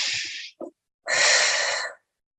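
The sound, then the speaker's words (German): Deep breathing, with airy, hissing breath sounds: a short breath and then a longer, steady one of about a second, fairly soft and heard alone. “vielleicht ganz tief einatmen. Atmen tun wir sowieso viel zu oberflächlich, also atme tief ein”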